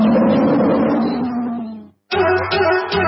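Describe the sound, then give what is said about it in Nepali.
A tiger roar sound effect in a radio station jingle: a loud, rough growl that holds and then fades out over about two seconds. After a short silence, a further loud, steady burst follows. “गर्जन छ सधैँ बाघ झै”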